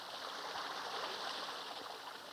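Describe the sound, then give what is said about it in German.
Steady splashing rush of a small indoor waterfall in a zoo's tropical house, continuous and even in level, fairly faint, with no voices. “Der kleine Wasserfall schafft im Tropenhaus des Hannoverschen Zoos eine angenehme Atmosphäre, gerade bei diesen winterlichen Temperaturen.”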